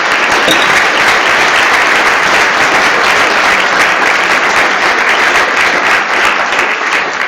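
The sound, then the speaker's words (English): An audience in Glasgow applauds to welcome a professor to the stage. The loud, dense clapping holds steady for the whole stretch with no voices over it. “put your hands together and give a very warm Glasgow welcome to Professor Tim Jackson”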